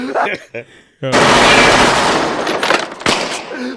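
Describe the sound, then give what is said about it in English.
A small gun fired in a film scene, a dense rattle of rapid shots running on for several seconds, preceded by brief voices. “When my man shot the little gun, he like, stop shooting that shit.”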